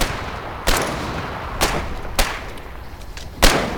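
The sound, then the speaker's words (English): Video game gunfire sounds as four separate sharp shots at uneven intervals, each a short punchy crack over a low, steady background hiss. “Oh, stop shooting at it. That's nothing. It doesn't hurt it. We need explosives.”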